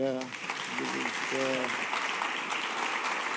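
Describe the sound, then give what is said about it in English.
Audience applause welcoming a pastor onto the stage, steady dense clapping throughout, with a voice speaking over the first part. “I'm going to ask Pastor Josh if he'd come. And next week, Josh. Yes, welcome. Can you give Josh a hand?”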